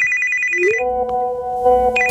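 A mobile phone ringtone rings on its own with a clear electronic melody of bright, sustained tones that step between pitches and hold steady, fairly loud, with no voices.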